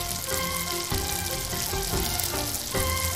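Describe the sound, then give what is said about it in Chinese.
Hot rapeseed oil, heated strongly in a wok, is poured onto ground chili and sizzles loudly. The hiss is continuous and bright, with brief surges, and no one speaks. “将锅猛火烧热，倒入菜油，将油烧至80%，浇在辣椒面上”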